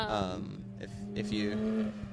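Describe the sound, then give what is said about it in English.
A black Porsche GT3 Touring sports car drives past at a cars and coffee meet, its engine rising briefly under steady, prominent talk from people nearby. “A black GT3 Touring just drove by.”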